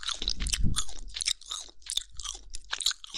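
Close, crunchy chewing, heard as many moist bursts of biting and grinding in an uneven rhythm. The sounds are fairly faint overall, with short quiet gaps between the chews.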